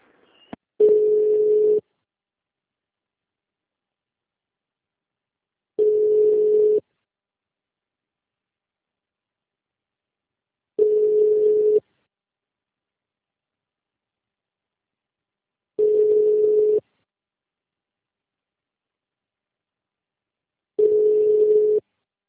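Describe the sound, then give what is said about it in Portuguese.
Telephone call tones sound while a call is placed: five steady, mid-pitched beeps, each about a second long, repeat at even intervals of roughly five seconds with silence between. “Um minutinho que eu preciso fazer essa ligação, rapidinho.”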